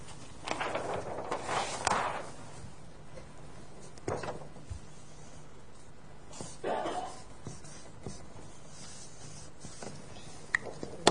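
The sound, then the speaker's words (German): Writing something down on a board: a few faint, scratchy bursts of marking strokes, heard under ongoing speech. “Jetzt schreibe ich das euch mal auf.”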